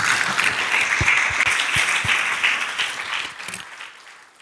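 An audience bursts into sustained applause, a dense wash of many hands clapping that stays strong before gradually thinning and fading toward the end.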